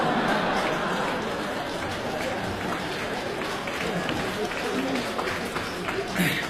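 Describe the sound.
An audience applauds at a comedy show in Beijing. Steady, dense clapping and crowd noise hold at an even level throughout, with voices talking over it.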